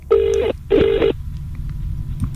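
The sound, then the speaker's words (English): Telephone ringing tone on a call to someone's mum, heard as two distinct bursts of the ring with a short gap between them, followed by a low, steady line hum. “Mum, I've broke a radio station. I've got no music to play, so I thought I'd give you a ring.”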